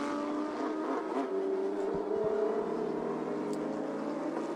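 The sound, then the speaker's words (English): A race car's engine drones as it drives back down the pit lane after the race, a steady low hum that swells slightly midway, moderately quiet throughout. “The car's coming back to the pit lane.”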